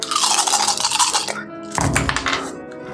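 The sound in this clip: Dice being grabbed and rattled during a tabletop role-playing game. A busy clattering rattle runs through the first half, then a fresh burst of knocking clatter follows after a brief lull.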